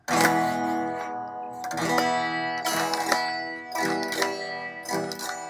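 Guitar strumming an E major chord: several full strums ring out in an even rhythm, each one bright and sustained before the next, with no voices.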